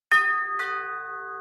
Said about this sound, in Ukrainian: Тієї ж миті продзвенів дверний дзвоник.